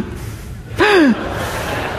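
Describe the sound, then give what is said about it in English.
A voice imitates people gasping in alarm at a close call while a car overtakes others: one short, sharp vocal gasp that falls in pitch, over a steady background noise. “They're doing it as a duet. Gasping at how close this is.”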